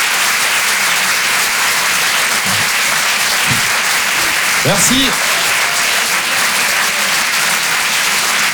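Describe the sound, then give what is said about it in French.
An audience gives steady, dense applause throughout, with a brief spoken thank-you partway through. “Je vous demande de l'applaudir très très fort.”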